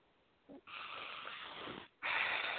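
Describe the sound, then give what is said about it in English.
A deep breath in through the nose and out through the mouth: a short sniff, then a long steady hissing breath, a brief pause and another strong rushing breath. “And now take a big breath in through your nose and out through your mouth.”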